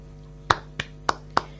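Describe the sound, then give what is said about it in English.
Four sharp hand claps, evenly spaced and crisp, standing alone over a faint steady hum. “Why are you clapping?”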